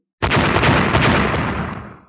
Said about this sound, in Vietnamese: Ba tiếng nổ đột nhiên vang lên, ba hư ảnh tu chân tinh nổ lên ầm ầm